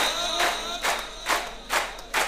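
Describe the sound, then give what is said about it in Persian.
A crowd claps in unison at a religious gathering honouring Imam Baqir, the claps falling in a steady, even rhythm, about five in all, each a dense burst of many hands. “دلی بی بی حضرت زهرا رو داری به دست میاری با این دست زدن”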